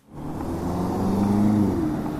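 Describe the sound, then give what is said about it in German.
Traffic on a busy city square at Potsdamer Platz in Berlin: a steady, low rumbling drone of car engines swells in quickly and holds at an even level throughout, with no voices heard. “Der Potsdamer Platz mitten in Berlin. Hochhäuser, Autos und Ampeln, auch zahlreiche Fußgänger, einzeln oder in Gruppen.”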